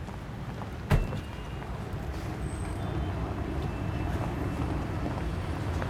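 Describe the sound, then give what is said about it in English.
A car drives off, its engine giving a steady low rumble with road noise throughout. A single brief thump sounds near the start. “They smile, keeping eye contact as the car drives off.”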